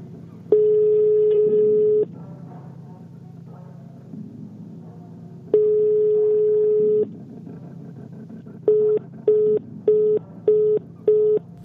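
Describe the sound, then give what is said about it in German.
Call tones from a mobile phone dialing out on a train platform: two long steady tones separated by a pause, then a quick run of short, evenly spaced beeps like a failed-call signal, clear over low background hum. “Hastig wählte ich die Rufnummer meiner Oma.”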